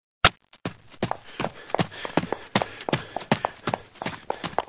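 Footsteps of people walking on foot toward an alley entrance form a steady, rhythmic series of many firm, distinct steps.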